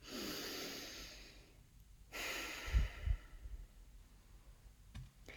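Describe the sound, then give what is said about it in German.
A deep breath taken during a guided meditation: a slow, airy inhalation and exhalation, soft and unhurried, followed by near silence and a faint click. “Dann nimm hier nochmal einen tiefen Atemzug.”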